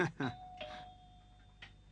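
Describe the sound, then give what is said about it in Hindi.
A bell rings inside a house with a thin, steady electronic tone held for over a second, fairly faint beneath people talking. “घंटी बज रही है, मैं जाके देखती हूँ कौन है। बाहर की घंटी नहीं है, यहीं की है।”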